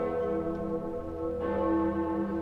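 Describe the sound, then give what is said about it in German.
A huge free-swinging medieval bell rings at Erfurt's cathedral for a Catholic convention. Its deep, sustained tone carries rich layered overtones, and a fresh strike lands partway through. No voices are heard. “Zu besonderen Anlässen läutet die größte freischwingende mittelalterliche Glocke der Welt, die Gloriosa, wie jetzt zum Katholikentag.”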